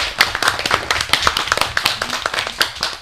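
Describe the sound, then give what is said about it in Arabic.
Applause for young singers, a small group clapping with many sharp, distinct hand claps in a loose, uneven rhythm, bright and moderately loud from start to finish. “برافو، تصفيقة كبيرة عليكم.”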